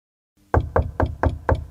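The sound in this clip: Knuckles rap on a headmaster's office door: five firm, evenly spaced knocks, loud and dull, after a moment of silence.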